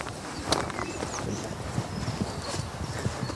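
Horses walk in a forest, their soft, irregular hoof clops sounding faintly over steady outdoor background noise.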